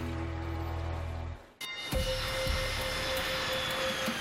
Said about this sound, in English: The last flight of the night has just landed at the Yellowknife Airport.